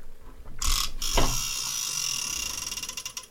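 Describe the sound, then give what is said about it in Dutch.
A letter wheel spun in a game gives a rapid, continuous ratcheting click with a louder clack near the start, breaking into distinct separate ticks toward the end. “We draaien aan het letterrad dat hier voor ons staat.”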